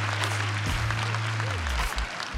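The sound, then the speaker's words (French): Guests applaud at a beach wedding by the ocean, under a veiled tent decorated with white orchids, a steady, moderate clapping over a low sustained tone. “C'est au bord de l'océan, sous une tente voilée ornée d'orchidées blanches, qu'ils échangent leurs vœux sous les applaudissements de leurs proches.”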